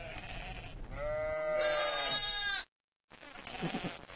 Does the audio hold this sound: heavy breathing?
no